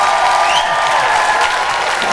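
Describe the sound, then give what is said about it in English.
A church audience cheering and applauding: thick, sustained clapping from a large group at a strong, steady level, with a few high whoops rising briefly above it. “Let's give him a real cheer. He's winning.”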